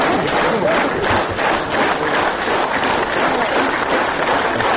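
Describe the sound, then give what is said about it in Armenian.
Dense, sustained applause from an audience as the mayor of Gyumri is escorted onto the stage at a book presentation. It stays loud and steady for the whole stretch with no single voice standing out. “նրան բեմ ուղեկցեցին բուրըն ծափահարություններով”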